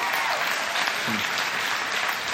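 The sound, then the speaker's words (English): An audience applauds at the close of a panel discussion, with dense, sustained clapping filling the whole stretch at an even level and a brief voice faintly audible beneath it. “why don't you give these guys a round of applause?”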